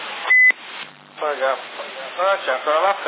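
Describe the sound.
A short electronic beep on a CB radio channel in Sassari, signalling an incoming call: a single steady tone, followed by narrowband radio voices talking.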